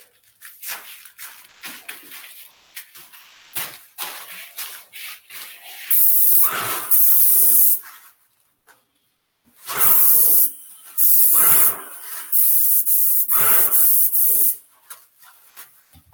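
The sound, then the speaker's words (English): Paint sprayer, a standard unit such as a Titan 440, spraying enamel in several loud, sustained hissing bursts separated by short gaps, with quieter scattered sounds before the spraying starts. “So same thing, even with enamel 310, standard sort of standard sprayer 390 or a Titan 440. So here we go.”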